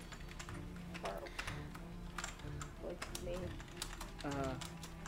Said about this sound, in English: I'm going to type something to you.